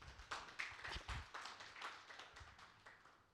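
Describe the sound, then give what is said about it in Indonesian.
Faint audience clapping in praise of God during a church service, a soft, fairly quick and steady patter of claps. “Come on, tepuk tangan buat Tuhan.”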